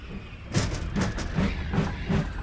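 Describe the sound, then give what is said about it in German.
A train's rhythmic clickety-clack, a steady series of evenly spaced wheel beats over a low continuous rumble, heard without talk. “der Zug!”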